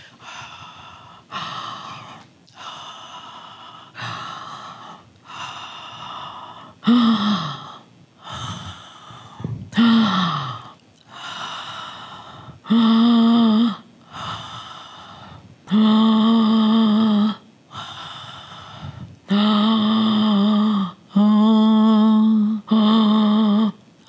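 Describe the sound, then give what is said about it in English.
Breath in and out repeats many times in a slow, even rhythm. The later inhales are voiced and slowed down into drawn-out, steady low hums. “At a certain point on the inhale, begin to sound the inhale. And then slow it down.”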